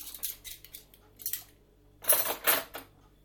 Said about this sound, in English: I hate washing dishes. I hate washing dishes because the sink is too low. If the sink was another 4 inches higher, then I'd be quite happy. Currently stooping over the sink.